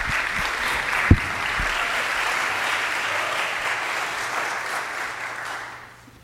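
An audience applauds to welcome a storyteller to the stage at a storytelling evening. The clapping is sustained and even, with one brief thump early on, then it fades away at the end.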